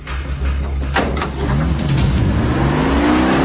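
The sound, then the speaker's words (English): An old, rusty green pickup truck's engine revving loudly as it pulls away, its whine climbing steadily in pitch over a low, rumbling drone. “He hurries through the backyard, climbs into his rusty green truck, and tries to escape.”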